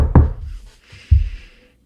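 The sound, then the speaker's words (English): Knocking on a door set into an entrance in the rocks: two dull, low knocks about a second apart, with a fainter tap just before the second and brief quiet in between. “sort of attached to an entrance into the rocks. I'm going to go ahead and knock.”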